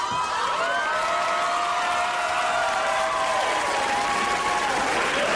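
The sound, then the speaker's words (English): Studio audience cheering, clapping and whooping in a loud, continuous wash of applause, with high whoops and shouts rising above it the whole time. “They cheer, they clap, they woo, and I know it's genuine.”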